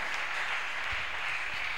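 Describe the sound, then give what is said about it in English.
An audience giving the Lord a mighty hand clap during a church sermon, a short, dense burst of applause that stays level and continuous from start to finish. “Give the Lord a mighty hand clap.”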